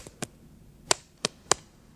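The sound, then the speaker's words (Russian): Crisp slaps of a wet twig switch, pulled from a bucket of water, smacked against an open palm: a few sharp, separate cracks at irregular spacing, with no voices. “Светловолосый идет за ними, достает из ведра с водой прутик, шлепает себя прутиком по ладони.”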